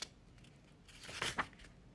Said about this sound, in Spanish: aquí lo tengo, vamos a pasar la página. Quiero ver.